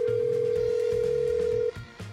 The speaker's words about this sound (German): apropos Willi Kausen, den muss ich auch nochmal anrufen